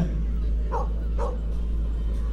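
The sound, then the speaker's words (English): Dogs give two short, excited yips at an outdoor event with races and competitions. The barks are brief and fairly faint over a steady low hum and background noise. “See, the dogs are very excited about that. They want you back again.”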